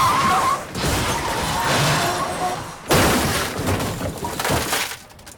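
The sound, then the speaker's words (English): Crash of a car whose side catches the bank of a road, flipping onto its side and sliding: a loud, sustained noisy grinding and smashing, with a fresh heavy impact partway through before the noise tails off. “The car's near side catches the bank of the road, and the car flips over onto its side and slides until it finally turns upside down and comes to a halt”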